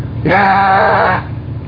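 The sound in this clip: A voice imitates a calf lowing: one loud, drawn-out nasal call that lasts about a second with a slight waver, then stops abruptly.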